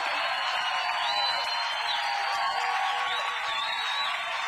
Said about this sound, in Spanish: Rindan ese aplauso más fuerte a Jesucristo el Salvador.